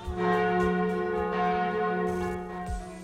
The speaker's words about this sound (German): da läuten doch mal wieder die Glocken, die Hochzeitsglocken.